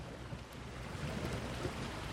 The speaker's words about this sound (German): im Hintergrund gibt es ein paar Hintergrundgeräusche, in dem Fall jetzt so klar ein bisschen das Meeresrauschen, oben über die Berg zieht gerade ein kleines Gewitter rein.